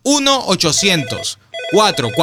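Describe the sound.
Telephone ringing after a number is dialed: a bright, repeated ring in short bursts with a brief gap in the middle, mixed with other sounds.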